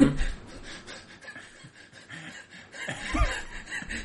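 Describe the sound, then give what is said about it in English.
Wheezing, breathy laughter from a person, with airy snickers and panting gasps that flutter on and off and then swell again toward the end. “I'm sure the mic's picking that up. That wheezing that you're doing.”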